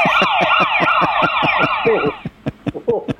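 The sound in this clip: Police and ambulance sirens wail together in a fast rising-and-falling warble over regular thumping pulses, then the sirens cut off and scattered thumps carry on alone.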